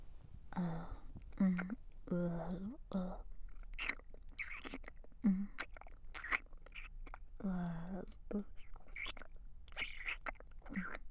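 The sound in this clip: Soft, faint chewing of food while eating, with small crunchy bites between quiet spoken words.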